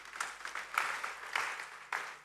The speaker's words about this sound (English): Can you clap your hands for Jesus, somebody?